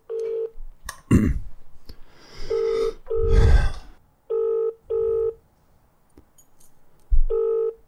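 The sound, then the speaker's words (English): An outgoing phone call to a business rings on the line, a steady buzzing tone in short bursts, some in pairs, between breathy noises and soft clicks, with no talk. “If they don't pick up, I might just leave a voicemail and then we'll call someone else.”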